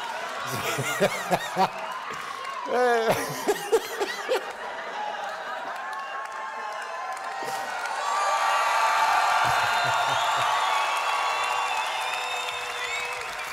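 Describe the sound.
An audience at a comedy show laughs in short bursts, then breaks into sustained cheering and applause that swells and holds steady through the second half.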